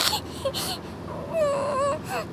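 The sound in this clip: A young child cries in a few wavering, whimpering wails, with short sobs and one longer drawn-out moan, moderately loud and with no other voices.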